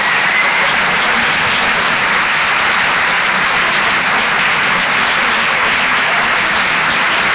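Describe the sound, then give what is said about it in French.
A comedy-club audience applauds after a stand-up set, with steady, dense clapping that stays loud and even for the whole clip. “Faites du bruit, s'il vous plaît, pour Bruno Becky”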